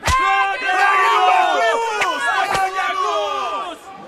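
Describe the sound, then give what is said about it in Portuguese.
Furious crowd shouting in a dramatized Passion scene of Jesus' trial before Pilate: many overlapping voices yell together in a loud, continuous uproar, with a few sharp cracks. “A surra violenta que os guardas deram em Jesus não satisfez a crescente fúria da multidão.”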